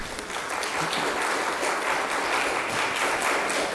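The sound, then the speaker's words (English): Applause from a church audience on its feet, a steady, dense wash of clapping that runs through the whole clip at moderate volume, with no voices standing out. “you know, we're getting like a Southern Baptist church here. I haven't seen so much clapping in the church, standing up.”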